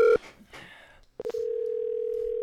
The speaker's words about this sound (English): We're getting him on the line here.